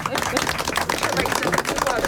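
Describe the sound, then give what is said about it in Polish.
Applause fills the whole stretch as dense, steady clapping, with voices mixed in among the claps. “Oklask! Brawo!”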